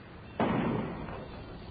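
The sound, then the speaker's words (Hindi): A single gunshot during a city riot: one faint, sudden bang with a sharp attack, followed by a decaying tail that fades slowly. “क्यों जी, ये गोली की आवाज है? गोली की आवाज?”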